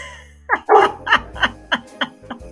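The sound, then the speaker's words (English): A pet dog barks in excitement, a rapid series of sharp, loud barks at a fairly even rhythm, with no talk over them. “that's my dog.”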